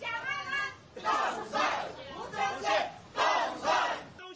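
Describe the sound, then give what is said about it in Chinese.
A crowd at a market in Yilan cheers and shouts wishes of election victory for a Kuomintang county magistrate candidate, rising in loud repeated waves of massed voices after a quieter, murmuring start. “进市场扫街时，现场预祝当选的声音此起彼落。”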